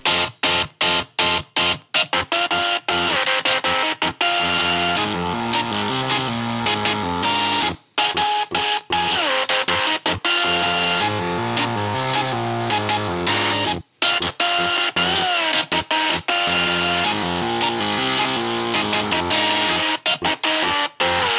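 Music played on a dozen machines plus a portable sewing machine, performing a pop song. Buzzing, stepping mechanical tones carry the melody over rhythmic motor whirring, with frequent short gaps between phrases.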